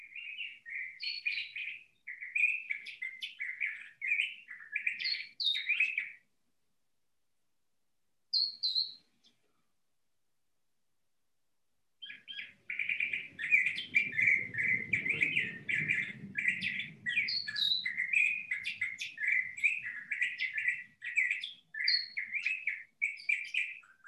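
A pet bird chirps in quick, high-pitched runs of twittering notes, stops, gives one short call, then falls silent again before starting a long burst of rapid chirping that continues to the end.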